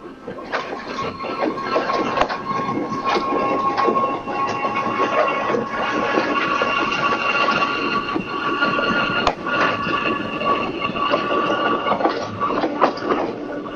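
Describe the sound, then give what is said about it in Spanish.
A crowded commuter train with a windowless carriage runs along on a Monday morning, giving off a steady rumbling rattle with clicking wheel noise and an occasional sharp clack, continuous and fairly loud throughout. “el tren que tenía que llegar 8:10 venía atrasado, como siempre. Se cierran otra vez las puertas y entiendo que hasta Retiro ya no va a mejorar el viaje.”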